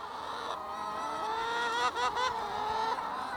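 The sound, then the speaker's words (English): A flock of about 1,000 chickens on a Bucks County farm rushing out to peck at lettuce and berries, making a steady, moderately loud chorus of overlapping honking squawks and clucks. “That is the sound of 1,000 happy chickens. They're rushing out to peck away at lettuce and tussle over berries.”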